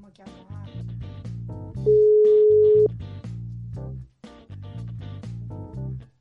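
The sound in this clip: A telephone tone sounds while a call is being placed: one steady, unbroken pitch holding for about a second over a looping backing melody.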